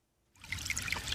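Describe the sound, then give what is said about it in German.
A small brook trickles near the source of the Eger river below the Schneeberg: a soft, bubbly splashing that starts after a brief silence and carries on evenly for the last second. “An der Egerquelle am Schneeberg beginnt der Radweg. Anfangs plätschert die Eger noch als Bach leise dahin.”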